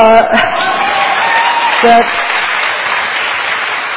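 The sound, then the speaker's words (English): A crowd cheers and applauds at a speech, a dense, steady wash of clapping that runs throughout, with a couple of shouted voices rising briefly out of it. “Here's what she said to a crowd, to a cheering crowd, not too long ago.”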